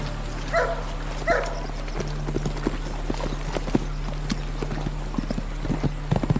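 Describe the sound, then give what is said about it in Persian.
Horse hooves clip-clop steadily as a rider travels on horseback toward a village: many even, sharp hoofbeats in a continuous rhythm over a low, steady background hum, with no voices. “رحمت سوار بر اسب به سمت روستای تجریش میره”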